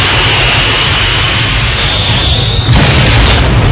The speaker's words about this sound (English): I've got radar lock. Good call, I'm taking a shot. Fire!